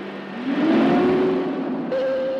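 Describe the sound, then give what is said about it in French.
Motor of a boring cutter machine starting up in a tunnel: a broad, rough rumble swells and rises as it spins up, then a steady higher whine joins near the end. No voices. “Potremmo provare ad assaggiare la parete qua e là, ma con molta attenzione. Mettete in moto la fresa.”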